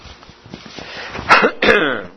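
Throat clearing and coughing from a throat with a frog in it: a low rough rasping, then two sharp, harsh coughing bursts close together near the end.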